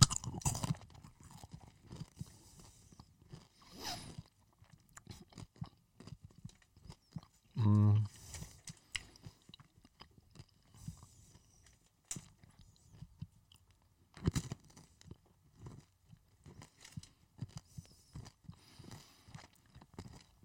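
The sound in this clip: Chewing on a yellow chocolate candy with a liquid caramel centre, similar to an M&M: soft crunching and mouth noises scattered through the stretch, with one brief louder burst partway in.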